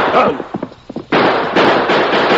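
Gunshots in a radio drama shootout: a few quick, sharp cracks followed by two long, loud bursts of harsh noise that fill the rest of the moment.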